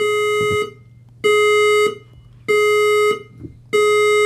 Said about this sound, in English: The fire alarm has been activated in another area of the building.